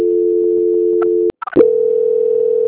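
A steady, mid-pitched telephone tone plays while a call is transferred to a quality-control department. It breaks off briefly with a few short clicks, then resumes, loud and unbroken, with no voices.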